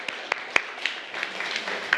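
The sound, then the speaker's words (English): Hand clapping in a classroom lesson: a few scattered, sharp claps spaced unevenly over a quiet background, faint overall with no steady rhythm. “Congratulations. Clap your hands.”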